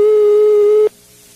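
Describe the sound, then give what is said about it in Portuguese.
Telephone ringback tone while a call is placed: one steady, mid-pitched electronic beep holds for just under a second, then cuts off abruptly, leaving only faint line hiss. “Oi, tá chamando.”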